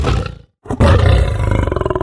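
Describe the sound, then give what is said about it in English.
A lion roars loudly, a deep snarl that breaks off into a brief silence and then returns as a sustained, rumbling roar pulsing with rhythmic grunts, heard alone. “And here's a roaring lion.”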